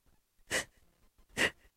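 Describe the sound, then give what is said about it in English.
Two sharp, gasping breaths, a voice imitating the laboured, shallow breathing of someone in pain who could not take a deep breath. Each is a brief breathy rush, evenly spaced, with quiet between them. “It was hard for me to breathe. I couldn't even breathe. I had to breathe like this.”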